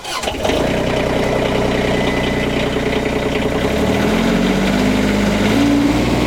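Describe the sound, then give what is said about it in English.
An ECR25 diesel machine engine starts after a brief cranking burst and settles into a loud, steady idle with a constant droning hum. Its tone shifts partway through while the running stays even to the end. “I'm in the diesel machine right now. The same size machine, ECR25 diesel. I need to turn on the master switch. Crank.”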